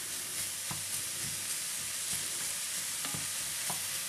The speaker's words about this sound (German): Es brutzelt ganz wunderbar. Hurra, hurra. So, diese guten Teile rühre ich jetzt schon um, dass überall ein bisschen Öl dran ist.